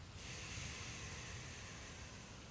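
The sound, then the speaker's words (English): A slow, soft breath taken during a breathing exercise: one continuous airy hiss lasting a couple of seconds, faint and heard alone. “Breathe with me a few times. Try your best to focus only on your breath. In. Out.”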